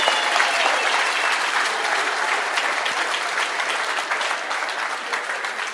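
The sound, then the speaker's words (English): A church audience claps their hands in steady, dense applause that holds at an even level from start to finish, with no voices standing out. “Then let's clap our hands for him.”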